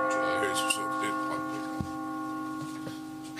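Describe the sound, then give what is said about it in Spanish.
Hourly radio time signal marking 2 pm: three short, distinct ticks roughly a second apart over a steady, sustained tonal background, with no speech. “va a sonar el top de las 2 de la tarde”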